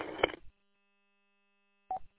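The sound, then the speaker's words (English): Telephone signal tones during a call: a short noisy burst, a long silent gap, then a quick pair of electronic beeps at a steady pitch. “Sorry about that. Got a phone call, and it was garbage.”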